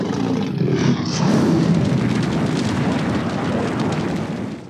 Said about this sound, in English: If I heard that sound on the battlefield, I would definitely be running for the hills. Dragons are essentially the nuclear bomb of the Game of Thrones universe, with the potential to change the nature of warfare in Westeros.